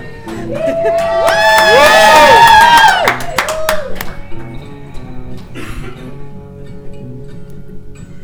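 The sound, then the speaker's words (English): A live audience in Salt Lake City cheers, with a loud burst of massed shouting for about three seconds, then scattered clapping and lighter crowd noise. “hey, y'all are supposed to cheer like you're enthusiastic.”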